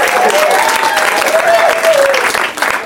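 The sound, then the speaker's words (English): A live audience cheers and applauds at the UCB Theater in Los Angeles. Dense, steady clapping stays loud throughout, with a sustained whistle riding over the crowd noise for much of it. “coming to you from the UCB Theater in Los Angeles in front of a live audience. Yeah, that's them right there.”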